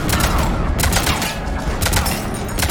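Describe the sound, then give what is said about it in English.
Rapid gunfire in a video game, aimed at an aircraft cockpit: a dense, continuous stream of loud shots and thudding impacts that runs without a break for the whole clip. “Keep shooting that cockpit. Oh, down it goes.”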